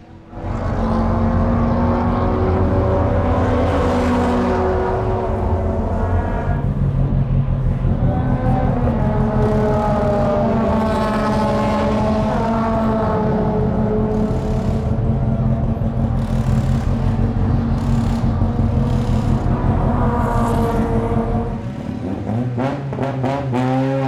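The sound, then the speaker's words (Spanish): A Volvo car arrives with its engine revving loudly for over twenty seconds. The tone climbs and falls repeatedly as the throttle changes, then the sound drops away near the end. “Ya llegó el Volvo.”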